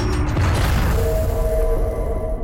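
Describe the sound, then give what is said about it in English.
Bulky roof doors slowly closing over a skylight shaft produce a loud, steady low mechanical rumble laced with drawn-out creaking tones, continuous from start to finish. “The bulky roof doors slowly come to a close as a narrow line of light gets thinner and thinner.”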